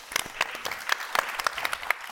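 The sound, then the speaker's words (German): A theatre audience applauds a comedy troupe on stage. The clapping is soft and fairly sparse, with distinct individual claps popping out irregularly over a faint background patter. “Also vielen Dank. Applaus an euch, dass ihr da seid.”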